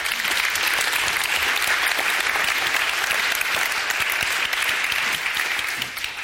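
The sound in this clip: An audience gives sustained applause to welcome a neuroscientist introduced at a talk. The clapping is full and even, holding steady before easing off slightly in the final moment.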